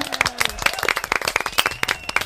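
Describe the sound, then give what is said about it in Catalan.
Applause from a few people in a studio, sparse and uneven individual claps at moderate level, rapid and irregular, with a faint tone beneath and no talk on top. “Ja està, aplaudiments.”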